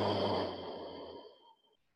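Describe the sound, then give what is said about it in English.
A long, steady breath out during a flowing yoga sequence. The breathy exhale is loudest at the start and fades away over about one and a half seconds. “take a breath in. Empty out”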